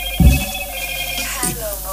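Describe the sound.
A telephone rings with an incoming call in a radio studio: a steady electronic ringtone runs throughout, with brief voices over it.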